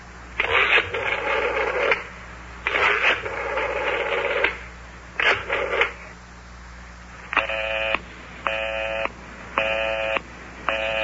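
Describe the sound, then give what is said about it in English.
Telephone dialing followed by a busy signal: a few noisy, buzzy bursts, then four short, evenly spaced electronic tone beeps of steady pitch, with no talking. “Listen to that. The line is still busy.”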